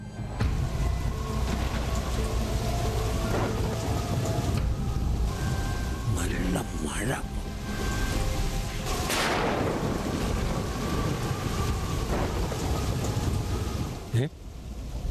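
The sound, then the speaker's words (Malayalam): Storm wind blows outside, a steady roaring rush with a rain-like hiss throughout and a stronger gust swelling near the middle. “പുറത്ത് കാറ്റ് വീശുന്നു.”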